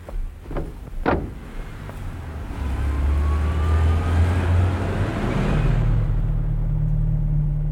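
A car drives off, its engine settling into a low, steady rumble that grows louder and fuller as the vehicle pulls away, with no talk over it.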